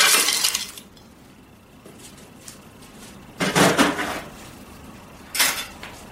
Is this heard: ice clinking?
yes